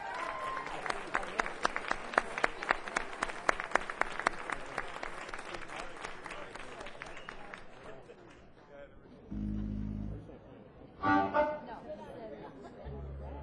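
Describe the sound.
Audience applause and chatter welcoming a blues band onstage, fairly faint, with distinct claps for about eight seconds before thinning into murmur and brief voices.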